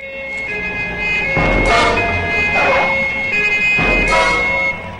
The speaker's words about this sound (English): He turns as a police car screeches to a halt.